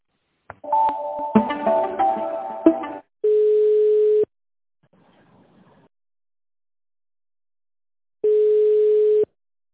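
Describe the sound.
Telephone line tones while a call is put through to a tender department: a burst of mixed ringing and tones, then two separate steady one-second beeps at a single mid pitch, with near silence between them.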